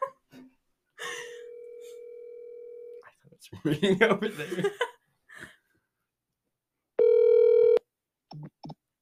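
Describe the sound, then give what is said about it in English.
Telephone tones as a call is placed: a long steady mid-pitched tone, a noisy rustling stretch, then a short, loud buzzing beep, with brief vocal sounds scattered around them. “I should call the ghost of Aiden. Calling Mr. President.”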